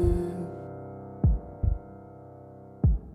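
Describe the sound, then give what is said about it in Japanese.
A heartbeat heard through the chest: a few deep, low thumps in an uneven pulsing rhythm, one of them doubled, following a sustained hum that fades away. “私の胸に耳を当ててあなたはずっとここにいるほら鼓動が聞こえる”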